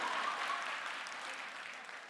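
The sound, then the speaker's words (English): Congregation clapping during a church sermon: a dense, steady patter of many hands that stays fairly soft and even throughout, with no voices over it. “You clap more, I'll preach faster.”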